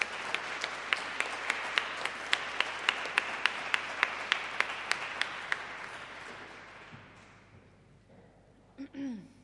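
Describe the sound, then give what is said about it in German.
Applause in a church welcoming confirmation candidates: dense clapping with many sharp claps standing out, steady for about six seconds before dying away. “Die Konfirmandinnen und Konfirmanden, die jetzt hier in der Kirche sind, sollen bitte noch mal aufstehen, dann begrüßen wir euch hier noch mal mit einem Applaus.”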